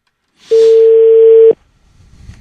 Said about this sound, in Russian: давайте позвоним опять этому человеку, который сидит у меня там в этой самой высотке.